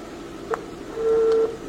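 Telephone dialing tones as a number is entered to place a call: a short beep followed by a longer steady tone, over a low background hiss.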